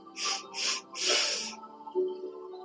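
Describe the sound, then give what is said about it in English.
Deep inhale during a relaxation breathing exercise: airy, hissing breath drawn in three pulses, the last one longest, fairly soft and without talk. “Inhale and tense your body.”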